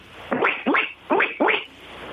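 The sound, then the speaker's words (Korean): A person imitates a duck's quack with four nasal, upward-sweeping calls in an even rhythm. The calls are fairly loud and there is no other voice. “오리부터 볼게요. 오리.”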